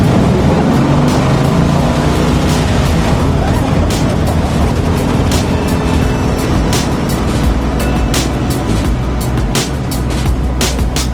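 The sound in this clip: A car drives through the desert, its engine and tyres making a loud, steady roar with scattered sharp clicks and rattles throughout.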